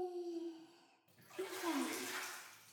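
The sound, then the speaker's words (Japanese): Hot water is poured over a body in a bath, a sudden rushing splash that begins about a second in and keeps washing steadily to the end, preceded by a sustained voiced tone. “ザバーン。こうやってお湯かけてると、昔プール行った時のこと思い出しちゃう。”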